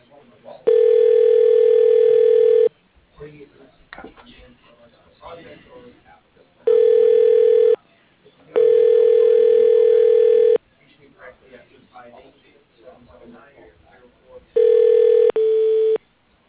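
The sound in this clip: Telephone ringing tone as a call is transferred to an assistant's voicemail: several long, steady buzzing tone bursts separated by gaps of low noise, with the last two bursts close together.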